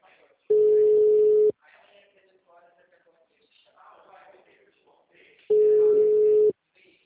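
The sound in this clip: Ringback tone on an unanswered phone call: two steady, mid-pitched beeps, each about a second long, separated by a long pause in which a voice talks faintly.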